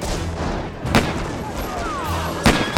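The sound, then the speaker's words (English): Gunshots in a street-barricade battle between soldiers and defenders. A few sharp, loud bangs stand out above a constant rough roar of noise. “Bullets whizzed everywhere.”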